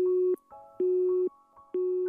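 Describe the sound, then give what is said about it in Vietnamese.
A phone's busy tone sounds after a call is hung up. Three steady, mid-pitched beeps of equal length are separated by short gaps, fairly quiet throughout. “Điện thoại bị tắt ngay sau đó.”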